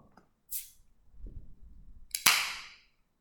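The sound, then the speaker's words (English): A can of Gangsters West Coast Hazy IPA beer is opened: a brief airy scrape, faint fumbling, then a sharp snap of the tab with a burst of fizzing hiss that trails away. “Gangsters, the West Coast Hazy IPA. Excited about this. This is going to power us through the end of this movie right here. Here we go. Let's. I gotta get my fingernails under there. Let's crack it open and let's let this party begin.”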